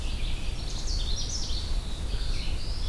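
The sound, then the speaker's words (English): Songbirds singing in the Allegheny National Forest: a faint, continuous warbling chorus of thin, high notes over a steady low background rumble. “This Canada warbler is just one of many songbirds I found by just sitting quietly, listening to the bird songs around me.”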